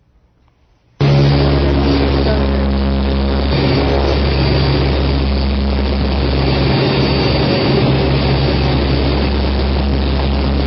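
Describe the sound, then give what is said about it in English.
Loud jet engine roar from an airplane taking off on a night mission. It bursts in after a second of near silence and holds a steady, dense rumble with a low droning hum to the end. “This is going to be a takeoff.”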